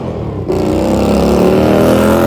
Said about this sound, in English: Hey! Motorcycle's so loud.